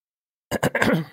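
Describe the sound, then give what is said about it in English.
Someone clears their throat in a short, rough burst of a few quick, gravelly pulses, heard alone with nothing else around it. “every time I need to talk, I need to clear my throat.”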